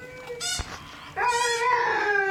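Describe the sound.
A dog howls and whines while holding a toy, mixing thin high whistling whines with a louder, sustained wavering howl that swells in the second half.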